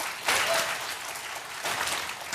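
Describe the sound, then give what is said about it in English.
A church audience applauds, a steady wash of clapping that holds loud and even for a couple of seconds, swelling slightly at the start and again near the end. “Give Kate a hand right here”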